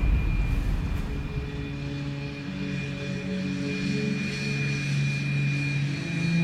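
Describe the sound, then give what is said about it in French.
An airplane engine drones at an airfield where a plane waits to fly passengers back to Moscow in August 1991. A steady, fairly faint hum with sustained tones sits over a low rumble and stays even throughout, with no voices. “Là-bas, un avion les attend pour les ramener à Moscou.”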